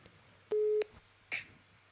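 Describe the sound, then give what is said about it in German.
A telephone call tone while dialing a mobile phone: one short, steady electronic beep, followed by a click and a softer, brief blip, all fairly faint. “Ich rufe da jetzt mal an.”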